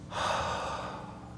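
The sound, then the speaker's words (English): A person exhales once, a long breathy rush of air that holds steady for over a second and then eases off, with no talk over it. “So Jesus would have gotten close to them and exhaled.”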